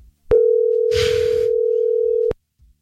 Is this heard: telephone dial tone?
yes